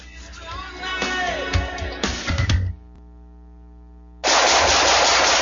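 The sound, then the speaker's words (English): Gunfire from shooting breaks out near the end as a loud, dense burst of rapid shots that runs on without a pause, following a stretch of mixed, quieter sounds. “Nice shooting.”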